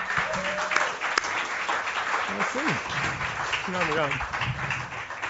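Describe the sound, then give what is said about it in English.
Audience applause as a guest is welcomed to the stage of a live interview show: steady, moderate clapping throughout, with voices talking over it. “So without further ado, Dan Savage. Please welcome to the program Dan Savage.”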